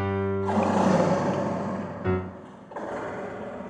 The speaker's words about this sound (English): a roar echoes from somewhere in the deep, dark recesses of the cave.